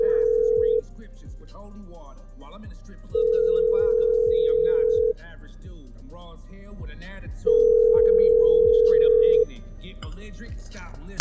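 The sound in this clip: Ringback tone of an outgoing phone call: a steady low tone sounds in three long bursts of about two seconds each, separated by pauses, with faint voices underneath.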